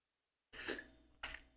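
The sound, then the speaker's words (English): Coughing and throat clearing by someone with something stuck in the throat. A rough cough is followed by a second, shorter clearing burst, both fairly faint with a quiet lead-in. “Excuse me. Hold on. I got a little bit of something stuck in my throat here.”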